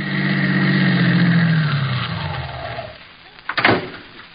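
A car drives up and stops in a radio drama sound effect: a steady engine hum winds down and fades, then a couple of sharp clunks like a car door land near the end.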